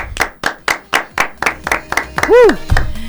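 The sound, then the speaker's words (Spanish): Applause in a radio studio welcoming a band, a few people clapping in a quick, fairly steady rhythm, followed by a brief vocal whoop near the end. “vamos a dar un fuerte aplauso aquí en el estudio de la OID, en el estudio número 1”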